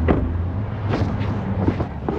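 Pouring rain heard from inside a rented Kia car: a dense, continuous drumming patter over a low, steady rumble, fairly loud, with no voices.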